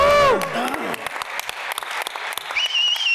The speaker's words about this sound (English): And we'd like to welcome one of the nicest guys in the HVAC industry. Give it up for Mr. James Lechter.